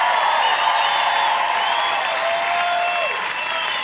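Applause and cheering from the eTown audience welcome David Gray back to the stage, a steady, dense wash of clapping that holds at an even level throughout.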